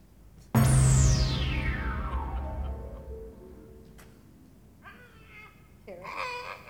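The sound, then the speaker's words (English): Pterodactyl screech sound effect: a sudden loud burst with a long tone sliding steadily downward and fading over several seconds, then short shrill, harmonic cries near the end. “Ah, here it is. It's a pterodactyl.”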